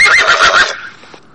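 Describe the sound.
A horse neighing: one loud, shrill, quavering whinny that fades quickly into a short breathy tail.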